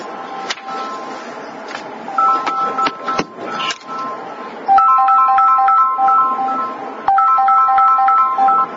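A mobile phone ringtone goes off during a class, a bright electronic melody of short tones repeating its phrase a few times, loud and steady with brief gaps between cycles.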